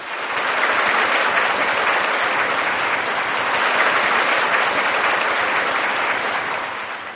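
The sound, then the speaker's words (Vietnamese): A big round of audience applause at a Buddhist program welcoming a lawyer guest. The clapping is thick and continuous, holding steady before tapering slightly at the end. “xin quý vị cho một tràng pháo tay thật lớn để chào đón Phật tử luật sư Lê Thanh Sơn.”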